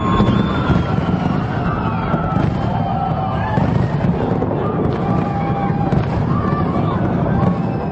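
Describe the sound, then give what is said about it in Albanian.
Fireworks exploding over a city square in Pristina on a cold celebration evening: many dense crackling bursts run continuously, loud and overlapping, with crowd noise and whistling tones mixed underneath. “në sheshin Nëna Tereze, qindra fishek zjarre kanë shndritur mbrëmjen e ftohtë të Prishtinës.”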